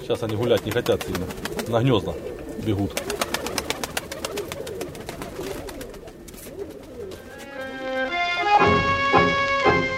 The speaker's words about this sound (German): Die Tauben bleiben in Sichtweite und kommen fast immer zurück.